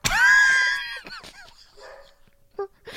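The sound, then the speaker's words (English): Dogs barking and whining: a loud, drawn-out high whine-like bark opens, then a few short yips and softer sounds fade, with one brief sharp yelp near the end. “I'm so sorry about my dogs.”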